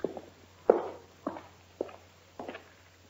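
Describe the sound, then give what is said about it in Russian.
Footsteps climb a staircase in a radio drama: several faint, uneven thuds fall at irregular intervals over a low steady hum. “По лестнице идут.”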